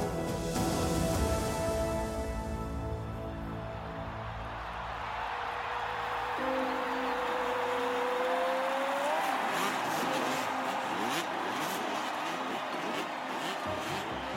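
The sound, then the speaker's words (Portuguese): A motocross motorcycle accelerates on a training track, building speed for a triple jump. The engine drones loudly throughout, with a rising whine in the middle as it speeds up. “Na pista de treino, acelerou para um salto triplo como o que havia no evento principal.”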